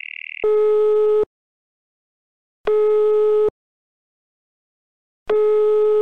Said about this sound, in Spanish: Este se enlaza una llamada muy deprisa con él y le comenta el estado de la situación.